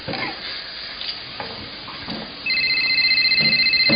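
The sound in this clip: Telephone ringing with an incoming call: after a stretch of quiet background noise, a loud electronic ring starts partway through and repeats in rapid, steady pulses until the end.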